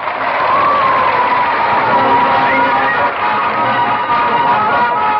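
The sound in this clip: A studio audience at a quiz show sponsored by a Sheffield dairy brand cheers and applauds to welcome the quizmaster, a loud, steady wall of crowd noise with whoops and shouts that holds for the whole stretch.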